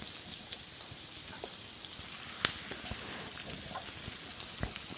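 Food frying in neutral oil in a pan, a steady low sizzle with scattered small crackles and one sharper pop near the middle; no voices.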